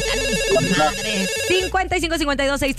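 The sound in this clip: Telephone ringing for an incoming call with an electronic, melodic ringtone. A voice begins talking over the tones partway through.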